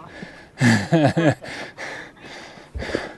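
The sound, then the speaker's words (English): Heavy, labored breathing from a hiker trudging up the Meteor Crater trail toward the rim: a series of loud, rough breaths, some voiced, in an uneven panting rhythm. “We make progress, one step and one deep breath at a time.”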